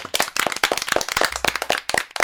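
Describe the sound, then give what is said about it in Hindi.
A small group applauds in a radio studio with brisk, dense clapping, loud and alone without any voices. “तो एक बार फिर से जोरदार तालियां सबके लिए।”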